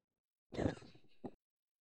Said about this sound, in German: wenn jetzt das Video zu Ende ist, dann gibt es mal ein Stöhnen von deinem Charakter und der greift zum Taschentuch.